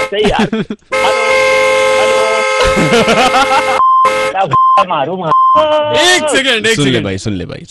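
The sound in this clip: Vehicle horn honking: a long, steady, loud blare of stacked tones, then voices talking over a few short, even beeps.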